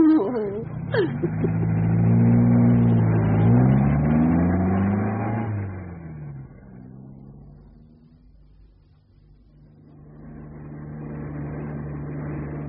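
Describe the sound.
A car engine revs hard, its pitch climbing and then sliding down as the car drives off and fades to a low rumble. Engine noise then swells again toward the end.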